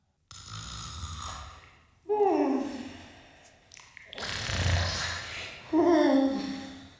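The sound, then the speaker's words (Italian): Loud snoring from a sleeping woman: several long, rattling snores with rising and falling tones, each drawn-out inhale separated by short pauses, heavy and throaty. “Ma sta russando! Ma senti, ma sembra una fanfara!”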